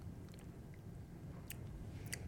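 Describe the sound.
Faint crunchy chewing of dried, shriveled black peppercorns, with a few brief crisp crunches standing out over soft mouth noise.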